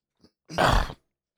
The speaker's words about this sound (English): Cut out my... I should just leave my, you know, throat clearing.